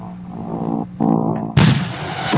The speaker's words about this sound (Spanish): Aprieta la barra espaciadora para lanzar el disco. Ok, vamos a presionar la barra de espacio. Van a oír el disco.